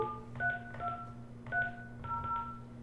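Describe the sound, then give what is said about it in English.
DTMF keypad tones as a phone number is dialed, several short, clear beeps in an uneven rhythm with pauses between key presses, over a low steady hum. “All right, what's his number? 300-82. What's the 732? Go ahead, type it in there.”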